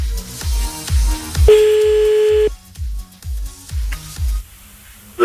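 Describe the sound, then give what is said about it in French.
Telephone dialing tones as someone calls a person back, with a steady held tone in the middle, all over a pulsing low beat. “Bah, je pense qu'on est prêt, là, pour rappeler, hein.”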